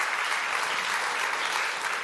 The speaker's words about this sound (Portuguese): Aplauda Ele. Obrigado, Senhor.